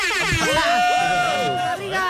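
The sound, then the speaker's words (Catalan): A horn blows one steady, sustained tone lasting about a second, sounding among people talking. “Sí, li hem tirat la botzina i tot.”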